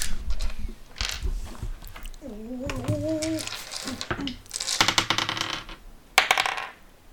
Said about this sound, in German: Und wir würfeln Initiative.